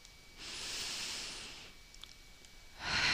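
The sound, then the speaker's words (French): Slow, airy breathing during a guided meditation: a long soft inhale tapers off, a quiet pause follows, and then the next breath begins more strongly. No voices are heard. “Je respire tout en tapotant.”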